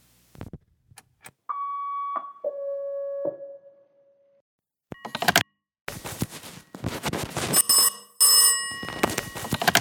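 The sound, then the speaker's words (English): A telephone rings with a few clear electronic tones, followed by bursts of clattering handling noise and rustle. “Answer the damn phone.”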